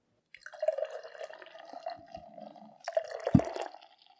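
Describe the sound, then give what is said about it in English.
Beer, a Modern Times Orderville hazy Mosaic IPA, is being poured, making a gurgling, glugging liquid sound in two uneven pulses that fade away at the end. “We are drinking a Modern Times Orderville beer today. It's a hazy mosaic IPA.”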